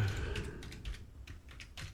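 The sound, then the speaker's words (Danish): Slow one-finger typing with an index finger on a computer keyboard: several separate, unhurried key clicks at an uneven pace over a low background hum. “Det går ikke fort med å skrive med pekefinger, men jeg får det til slutt.”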